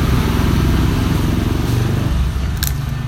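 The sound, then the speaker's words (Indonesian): A motorcycle engine revs loudly and steadily, making a dense, throbbing low rumble that holds its level throughout with no talk. “dengan suara motor yang luar biasa”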